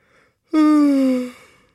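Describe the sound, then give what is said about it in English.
A single voiced yawn from someone reading scripture aloud: one drawn-out, moderately loud vocal sigh of about a second, with pitch sliding slowly downward before it trails off. “Does that count as a yawn?”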